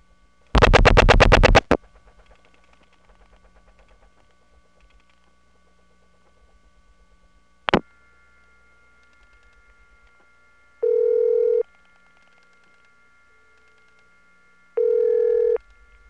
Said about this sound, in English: Before I finish dialing, take a listen to the background noise on this trunk. It's going to increase when we cut through.